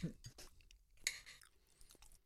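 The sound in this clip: Soft mouth sounds of someone chewing a dish served with bacon, an old Native American dish, with a few faint moist crunches and clicks scattered irregularly across the moment.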